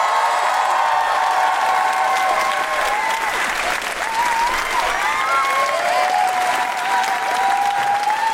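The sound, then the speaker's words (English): Loud applause and cheering from a live comedy show audience welcoming a comedian, with sustained dense clapping and scattered whoops rising above it throughout. “Put your hands together and make excited noises for the wonderful Jessica Foster Kew!”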